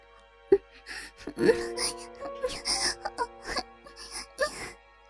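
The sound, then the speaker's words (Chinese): A girl's muffled moans and whimpers come as a series of short, breathy voiced bursts of uneven loudness, some rising in pitch, with brief pauses between them. “回答他的只有女孩的闷哼声。”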